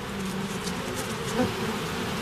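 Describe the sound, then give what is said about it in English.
Bees buzzing in a continuous, even drone. The dense, steady hum swells slightly near the middle and carries no voices. “Found them in the chimney once. Look at this. She likes you. She's a girl. Most of the bees you'll ever see are girls.”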